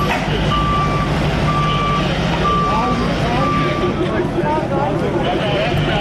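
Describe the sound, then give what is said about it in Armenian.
Long, evenly spaced reversing beeps from a tow truck clearing cars off a central street where traffic had stopped and police were towing vehicles. The steady, loud beeping cuts through a dense wash of engine and street noise, with voices in the background. “Ոստիկանները մեքենաները ճանապարհից քարշակների միջոցով հեռացրին։”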